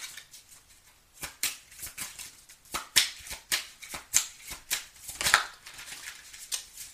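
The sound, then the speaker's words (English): Tarot cards are shuffled and pulled in a steady series of crisp riffling slaps and flicks that repeat at an even pace, fairly quiet with no talk. “Let me pull some more cards. What's some more messages for Leo?”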